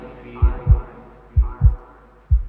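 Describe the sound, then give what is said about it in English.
Low, dull heartbeat thumps, three beats in a steady rhythm of roughly one per second, each a paired lub-dub double thud over a faint continuous hum. “I can feel heartbeats.”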